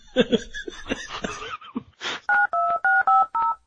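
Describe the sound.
Touch-tone telephone dialing beeps, several short two-note tones in quick, even succession, following a stretch of brief voices and chuckling.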